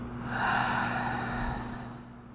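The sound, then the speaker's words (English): A long, deep exhale follows a breath in during a guided tapping relaxation exercise. The soft, airy rush swells early and then gradually tapers off over a low, constant hum. “And one more time, deep breath in. Let it out.”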